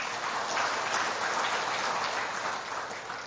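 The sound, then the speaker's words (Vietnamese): An audience applauds at a talk on love and care for Valentine's Day, with dense, steady clapping at an even level throughout and no voices heard over it. “cho một tràng vỗ tay”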